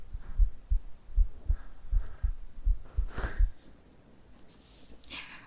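Heartbeat thumping in a person's chest: a steady run of soft, low, muffled beats for a few seconds, then fading away, with a faint breath near the end.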